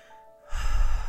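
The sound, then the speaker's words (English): A person draws one deep, audible breath: a soft, breathy rush that starts after a brief quiet moment and holds steady to the end. “I take a breath.”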